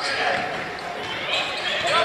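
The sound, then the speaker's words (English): A basketball is dribbled on the court during a women's game, a few bounces under the steady roar of the arena crowd. “Takes a few dribbles.”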